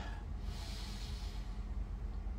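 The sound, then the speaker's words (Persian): A deep breath is drawn in during a guided relaxation exercise, a soft, airy hiss that swells for about a second and then fades, quiet and unaccompanied. “قبل از شروع یه لحظه یه نفس عمیق بکش”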